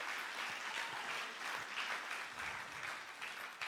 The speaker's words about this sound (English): I think that deserves a round of applause to everyone who's involved through the foundation.